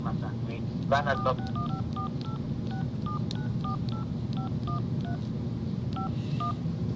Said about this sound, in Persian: شما 15 شماره کردیت کارتون رو وارد میکنید و دکمه پوند فشار میدید.